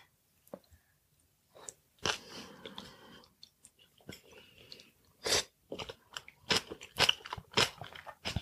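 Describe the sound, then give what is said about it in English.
Biting and chewing a mouthful of rice: a series of loud, crisp crunches and wet chewing sounds in irregular bursts, with no talking. “I'm gonna have a bite of the rice.”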